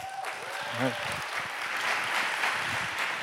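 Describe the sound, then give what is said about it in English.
A church audience applauds in welcome of a pastor: dense, steady clapping fills all three seconds at an even loudness, with a brief voice near the start. “would you please, each of you, make the noise of at least five others and join me in giving another warm Northwestern welcome to Pastor Dave Johnson.”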